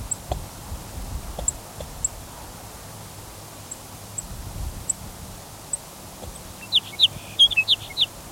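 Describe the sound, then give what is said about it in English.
Faint, high chip notes from a sage sparrow, probably a female, sound at spaced intervals, then a quicker cluster of louder chips comes near the end over a low background hum. “Another sage sparrow chipping, probably a female.”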